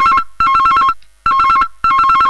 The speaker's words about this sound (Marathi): टेबलावरचा mobile वाजतो.